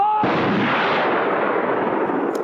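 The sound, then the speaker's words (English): A rifle volley from a firing squad in a film scene: one sharp, loud crack at the start, then a long fading rumble that fills the rest of the moment. “Shoot straight, you bastards! Don't make a mess of it!”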